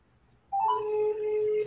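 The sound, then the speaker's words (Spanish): Steady electronic telephone tone as a call is placed, starting abruptly after a short pause and holding level and fairly loud to the end, with no voices. “Vamos a llamarlo a ver si contesta.”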